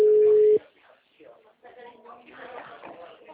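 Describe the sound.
A steady telephone line tone sounds after a dropped call: one loud, even hum held for about half a second, then cut off abruptly as talking takes over.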